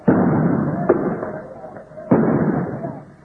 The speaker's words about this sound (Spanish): Se escuchan también algunos disparos de armas de fuego.